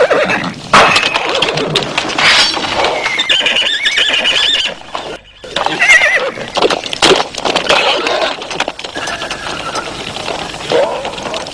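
Loud, repeated horse neighs and shrill squeals with some hoof clatter, set amid a noisy, chaotic fight.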